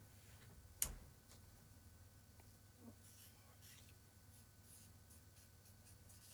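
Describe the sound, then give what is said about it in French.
Faint scratching of a pen writing on paper, soft and steady, with one sharp click early on and a low hum beneath. “Là, il est en train d'écrire sur...”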